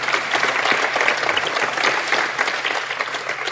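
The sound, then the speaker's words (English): A studio audience gives a round of applause, a dense, steady patter of many hands clapping at full strength for about three and a half seconds. “So, Star Talk audience, give it up for Andy Weir.”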